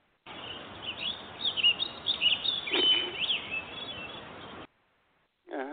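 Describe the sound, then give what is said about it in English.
Fake birdsong piped into a televised golf tournament broadcast: a continuous, thin-sounding bed of high chirps and tweets that cuts off abruptly, followed after a brief silence by the start of a voice. “But those are piped in. CBS fakes bird sounds for the Masters.”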